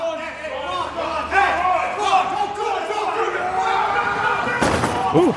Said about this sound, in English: That's a grown man getting thrown to a through a table.